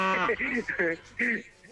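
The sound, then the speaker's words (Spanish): A person imitates a cow mooing, producing a few short, voiced, nasal lowing sounds in quick succession, each rising and falling slightly. “A ver, ¿cómo le hacen las vacas? Es importante, men. Bueno, le estás haciendo como buey.”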